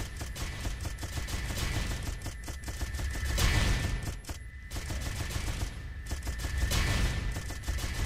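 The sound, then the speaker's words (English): Rapid gunfire in a video game rattles on as a fast, steady stream of faint shots, with the loudness swelling and dipping slightly but never stopping. “See how slower that gun is shooting though?”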